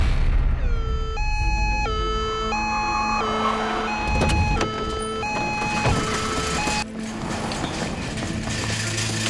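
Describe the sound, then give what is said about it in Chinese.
A two-tone fire engine siren sounds loud and steady, repeatedly alternating between a high and a low note in an even rhythm over a noisy background. “救救人了！哎， 救救我！你看，要救火车，快嘞！”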